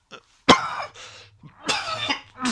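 Coughing and throat clearing from a person with something stuck in the throat: a few harsh bursts, the loudest early on, followed by rougher throat-clearing rasps, with no speech.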